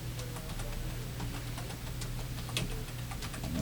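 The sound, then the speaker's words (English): Fast typing on a computer keyboard by someone with cold fingers. Many quick, light, irregular clicks patter over a steady low hum. “I'm trying to type fast, and my fingers are so cold.”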